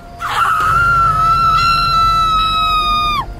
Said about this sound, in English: I heard a woman scream.